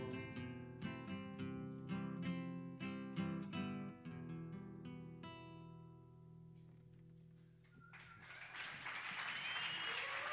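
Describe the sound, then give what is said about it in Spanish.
An audience breaks into applause at the end of a song: quiet melodic notes ring and fade for several seconds, then a soft wash of clapping rises and continues to the end. “Es que si no aplaudís, no parece que se haya acabado la canción, parece que no está terminado.”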